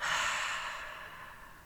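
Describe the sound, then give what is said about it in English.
A single slow, airy breath out through the mouth during a guided collective breathing moment, soft and breathy like a sigh, fading gradually over nearly two seconds with no talk. “let's take a collective breath together in through the nose and out through the mouth”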